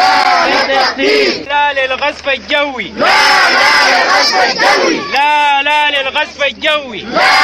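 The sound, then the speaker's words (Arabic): Displaced people in a camp in Darfur chanting slogans at a protest, with loud massed voices shouting in repeated phrases, each phrase separated by brief pauses. “وردد النازحين في اليوم الثاني للمظاهرات داخل معسكر كلمة هتافات ضد البشير والاستفتاء.”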